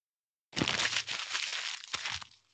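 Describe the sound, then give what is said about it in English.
Something is torn up with a sustained, crackling rip lasting about two seconds, broken by a couple of sharper cracks, fairly faint and with no voices. “Tear it up. So. Yeah. Oh, I missed you tearing up. Hang on. Wait. I can do it again.”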